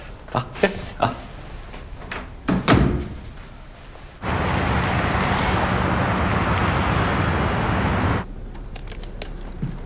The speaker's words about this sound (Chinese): 把门关上。